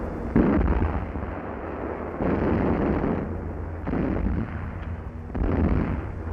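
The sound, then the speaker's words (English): Anti-aircraft guns fire at enemy planes in several heavy bursts, each a sustained, low, rumbling roar that cuts in abruptly and holds for about a second or more before easing. “Schon auf weite Entfernung werden die Feindflugzeuge bekämpft. Anti-aircraft guns tried to neutralize the danger overhead.”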